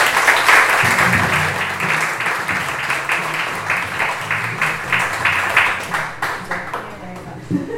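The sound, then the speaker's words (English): Audience applause welcoming a guest speaker at an evening event: dense, steady clapping for several seconds that gradually thins into scattered claps toward the end. “So let's hear it up for Evie Newman.”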